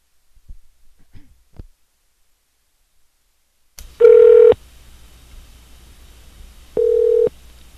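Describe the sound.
A telephone ringback tone sounds as two steady, evenly pitched buzzing bursts, each about half a second long and separated by a few seconds of quiet line hiss.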